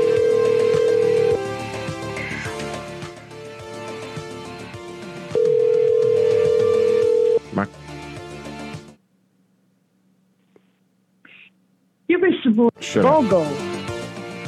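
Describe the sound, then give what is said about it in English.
A phone call back to a Dyson number: after talk over a music bed cuts out, a faint steady low tone and a couple of brief, thin beeps fill a few quiet seconds before a voice comes in. “All right, these fucking idiots have probably checked the caller ID by now, so let's call them back.”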